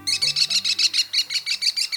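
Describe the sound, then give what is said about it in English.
An American kestrel, North America's smallest falcon, calling in a rapid, steady series of shrill, high-pitched notes, loud and evenly spaced throughout. “The American kestrel is the smallest falcon in North America and perhaps the best looking.”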